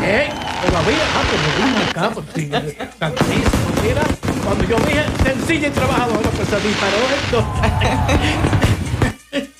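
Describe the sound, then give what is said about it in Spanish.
Fireworks sound effect of dense crackling pops and booms, with many rapid bursts firing almost without pause for nearly ten seconds. The effect is loud, and voices are mixed in beneath it. “digna de aplausos y que también suenen las trompetas y los fuegos artificiales”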